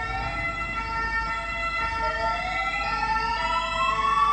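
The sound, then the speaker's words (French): An ambulance siren sound effect wails in steady, high electronic tones, with several tones sliding upward in pitch in the second half, loud and continuous throughout. “ramène-moi le bruitage de l'ambulance, là, tu vois, urgence, vends-moi ça.”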